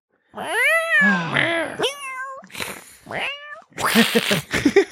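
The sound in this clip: A human voice imitating a cat: several drawn-out, wavering meows of varying pitch, then a rough, strained caterwauling yowl at the end, loud and with no other sound.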